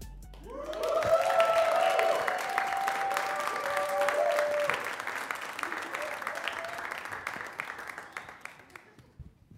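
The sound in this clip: An audience at a live show applauds and cheers, with a burst of clapping and whoops that peaks early and then gradually thins out.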